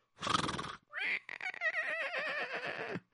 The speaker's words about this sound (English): I take our wagon and our old horsey. Come, horsey.